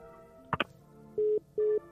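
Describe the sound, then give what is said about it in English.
A caller hanging up a telephone: a brief clunk of the handset, then two steady electronic tones of equal pitch, each lasting about a fifth of a second, on an otherwise quiet line. “We usually have people call and then they somehow get disconnected and they usually call back. No, it sounded like he hung up. Oh, okay. So sounded like he banged that,”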